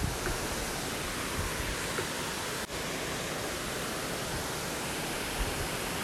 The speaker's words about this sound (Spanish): Esta cascada emana la energía de la fluidez, que siempre corre.